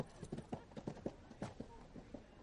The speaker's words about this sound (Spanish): monta en su caballo